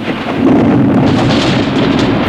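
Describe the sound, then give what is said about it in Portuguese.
Sudden thunder in a thunderstorm with rain: a loud, continuous, heavy rumble that swells early and holds, with a dense wash of rain hiss throughout. “Nossa, puxa vida, quantos trovões de repente. E também tá relampeando.”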